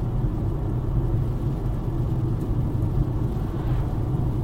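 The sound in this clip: Steady low rumble of a car on the drive home, a dense, even engine and road drone that holds at one loudness throughout with no voices over it.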